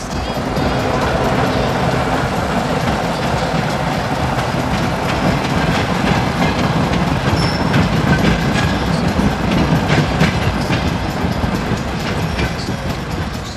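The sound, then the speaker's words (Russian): A shunting diesel locomotive pushes a flatcar carrying a gray concrete wall section. It makes a loud, steady rolling rumble with continuous rattling clickety-clack from the wheels that lasts the whole time. “Маневровый тепловоз толкает платформу.”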